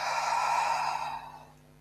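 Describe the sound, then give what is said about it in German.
A long, breathy exhale is released after holding the breath during a guided breathing exercise, a steady airy rush that gradually fades away. “Halte 3, 2, 1, atme aus.”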